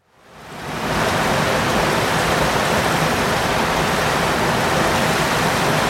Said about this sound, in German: Und bei dieser Mauer fließt dann das Wasser hinaus. Und vielleicht hören wir uns mal an, wie das klingt.